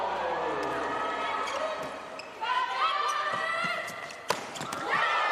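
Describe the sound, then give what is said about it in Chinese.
A volleyball thuds against the court floor as an Italian player bounces it before serving in a women's international league match between Italy and Belgium. A few sharp thuds sound under steady commentary and crowd noise. “现在上来发球的是意大利队的核心主攻手塞拉”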